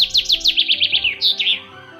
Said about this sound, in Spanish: comenzó a silbar e inmediatamente se asomaron los pajaritos del bosque